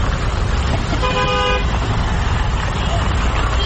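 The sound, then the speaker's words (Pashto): Dense traffic at a passenger vehicle station in Kandahar serving small and large cars bound for Kabul: a loud, steady roar of engines with a car horn sounding for about half a second midway, and people's voices mixed into the din. “دا په کندهار کې د کابل موټرونو اډه ده چې له دې ځایه هر ورځ زرګونه مسافر په کوچني او غټو موټرونو کې کابل ته تګ راتګ کوي.”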